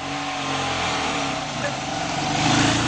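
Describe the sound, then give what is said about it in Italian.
Engine of an old Fiat 500 car running in a continuous, rough, steady drone at moderate loudness, swelling slightly toward the end. “E quindi nello spazio noi lanciamo il rumore del motore della 500, della vecchia 500”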